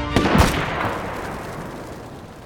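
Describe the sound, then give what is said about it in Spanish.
A firing-squad rifle volley executing prisoners: sharp, overlapping cracks merge into a loud boom that rolls and fades away over about two seconds. “Carguen armas, apunten, fuego.”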